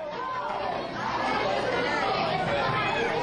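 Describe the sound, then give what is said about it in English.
Loud, dense chatter of about 100 third and fifth graders eating lunch at school, a continuous wash of overlapping children's voices with no pauses. “Such a familiar noise. For many of us, it's probably far removed, but that's the sound of about 100 third and fifth graders eating lunch at school.”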